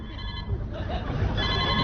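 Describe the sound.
A telephone rings with an incoming call. The ringtone is a steady electronic pattern of high, sustained tones, mixed with people talking.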